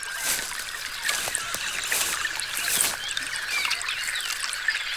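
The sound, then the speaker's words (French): Sunny pond-side ambience with water trickling continuously and scattered bird chirps over it. The sound is steady and fairly faint, with no voices. “Ah, voici une belle journée ensoleillée. Rien de tel qu'une petite balade au bord d'un étang.”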